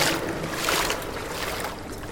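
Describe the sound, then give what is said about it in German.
Footsteps wade through ankle-deep water underground, making soft, continuous sloshing and splashing with a few stronger swishes. “Ich hätte nicht gedacht, dass ich mir unter Tage noch nasse Füße holen würde. Zum Glück reicht mir das Wasser nur bis an die Knöchel.”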